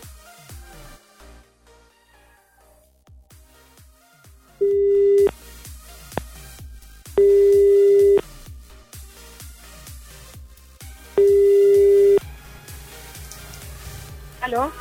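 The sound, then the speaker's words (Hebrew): Telephone ringback tones from a call being dialed: three steady mid-pitched tones, each about a second long and spaced a few seconds apart, sounding clearly over quieter background sounds. “בוא ננסה לחייג לטלפון. הכוח בידן.”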